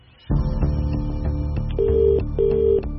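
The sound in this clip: A telephone rings as a call is placed: a buzzy, steady electronic ring starts abruptly, with a brighter tone pulsing twice over it.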